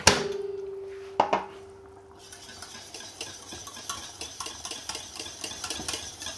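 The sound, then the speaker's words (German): Milk being stirred in a pot on a stove set to level two of six: an opening metallic clank with a short ringing tone, then many soft, rhythmic scraping strokes against the pot. “Umrühren.”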